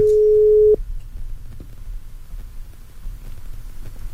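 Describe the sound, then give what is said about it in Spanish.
A telephone tone after a dropped call: one steady mid-pitched beep lasting under a second that cuts off abruptly, followed by low hiss and faint background noise. “Se cortó la llamada, fíjate.”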